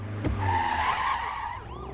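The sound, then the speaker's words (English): Tyres screech as a car brakes hard and skids: a loud, sustained squeal lasting about two seconds, with a wavering high tone that thins and fades slightly toward the end. “he slams on the brakes”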